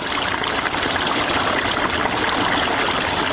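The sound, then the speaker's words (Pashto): Water flows while a pomegranate orchard is irrigated in the Spitkhar area of Tarinkot, Uruzgan, making a loud, steady rushing and trickling wash with no break. “سیف الله د ترینکوټ شاراړوند د سپیتخار په سیمه کې د انارو پر باغ اوبه لګوي.”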